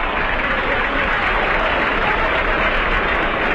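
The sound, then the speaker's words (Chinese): Stadium crowd cheering at a football match, a dense, steady roar of many voices and clapping that stays loud and unbroken throughout. “这片欢呼声，观众就像发疯”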